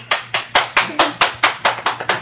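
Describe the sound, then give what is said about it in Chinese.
Steady hand clapping: ten crisp, evenly spaced claps in a brisk, regular rhythm, each one sharp and fairly loud, with a faint low hum underneath. “因为 我应该跟你鼓掌嘛”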